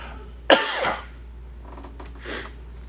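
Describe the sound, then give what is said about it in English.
Throat clearing by someone with something caught in the throat: one sharp, rasping burst, then a softer, shorter clearing sound a moment later, with no talk. “I've got something in my throat.”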